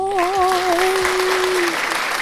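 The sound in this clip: An applause sound effect from a podcasting app: a short, steady burst of many hands clapping, evenly loud throughout.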